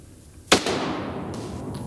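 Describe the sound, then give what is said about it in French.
A single gunshot is fired at a shooting target. One sharp, loud crack is followed by a short, noisy decaying tail and a faint background hiss. “Tu augmentes la pression sur la détente. Gentiment, tu vises, tu presses.”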